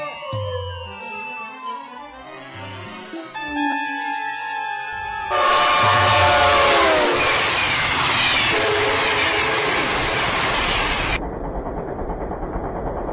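A northbound passenger train bound for Beijing travels with a broad rushing rumble that swells partway through and holds steady. Tonal sounds come before the swell, and the rumble drops back slightly near the end.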